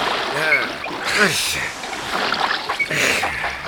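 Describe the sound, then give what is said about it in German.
Oars splash in water as a rowing boat is pulled along, giving a few broad, irregular splashes under loud voices calling out. “Packt an, Leute, wir müssen rudern. Zugleich! Zugleich!”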